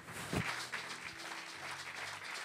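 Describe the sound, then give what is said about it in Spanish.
Congregation clapping during a church service, a faint, steady patter of many hands that continues through the whole clip. “Dele palmas al Señor entonces con todo el corazón.”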